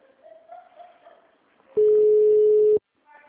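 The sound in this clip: Telephone busy tone after a dropped call: one loud, steady, single-pitched beep lasting about a second, preceded by faint voices on the line, with talking resuming just after.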